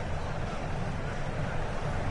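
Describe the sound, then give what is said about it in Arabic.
Heavy rain pours on a stadium in Philadelphia during the FIFA 2026 World Cup, a steady, dense hiss with a low rumble and no distinct drops or breaks. “ما زالت الأمطار تهطل بغزارة، ولذلك نحن غير مصرح لنا بالتواجد في أرضية الملعب”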